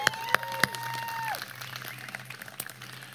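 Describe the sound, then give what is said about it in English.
Applause from a church audience during a service. A few sharp claps stand out near the start, then a steady, even patter of clapping follows for about three seconds. “Well, welcome to Church on the Square. Let's give the Lord a hand.”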